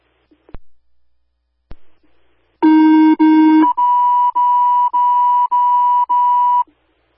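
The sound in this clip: Emergency dispatch alert tones sound for an EMS call: two long, loud lower tones run back to back, then five evenly spaced, higher steady beeps, all alone on the line after a couple of faint clicks.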